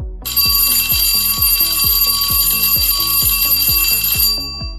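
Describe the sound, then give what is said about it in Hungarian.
A ringing bell signal sounds as a loud, fast, even series of metallic strikes over a sustained high shimmering ring, then stops abruptly. “Ez a csengő hang volt a jeladása jelentkezése.”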